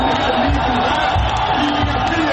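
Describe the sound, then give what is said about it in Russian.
A crowd outside a parliament building gives an ovation, a dense, continuous roar of many cheering and shouting voices that stays steady throughout. “Собравшиеся возле парламента встречают эту новость овациями.”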